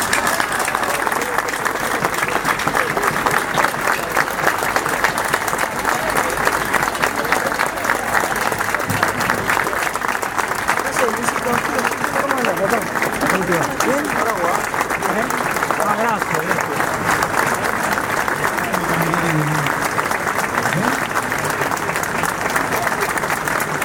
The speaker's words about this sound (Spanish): Por eso queremos culminar brindándolos y recordándolos como jóvenes con alegría, con un minuto de aplauso.